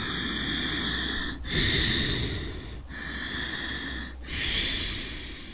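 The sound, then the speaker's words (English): Ujjayi yogic breathing, a slow, steady rasping breath drawn through a narrowed throat, runs as continuous hissing noise broken by three brief pauses between breaths, with no talk. “the Darth Vader breath or the Ujjayi breath.”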